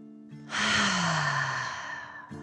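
A deep breath in and out is heard as a long, airy, sigh-like rush of breath lasting about two seconds, with brief voiced sounds just before and after.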